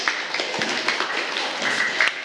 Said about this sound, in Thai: ปรบมือให้เพื่อนหน่อย